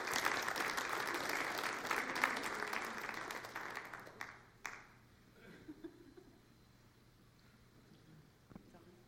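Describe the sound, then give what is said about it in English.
Audience applause welcomes a speaker to the stage, with dense clapping that holds for about four seconds before fading into a few scattered claps and quiet murmurs. “Let's give her a hand as she comes up and takes the stage.”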